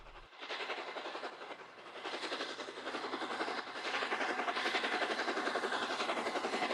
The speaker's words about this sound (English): From a front-on view of the approaching locomotive's black nose and red buffer plate, to a view of the track ahead.